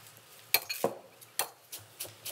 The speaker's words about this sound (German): Schneide ich schon mal ein bisschen Koriander.